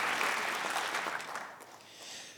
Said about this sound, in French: Le français impeccable est salué par le public du studio 104.